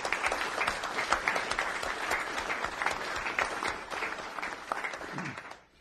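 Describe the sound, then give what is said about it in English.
Audience applause at a city council meeting: dense, steady clapping fills the whole stretch at an even level, then thins and fades away at the very end. “deserving of another round of applause”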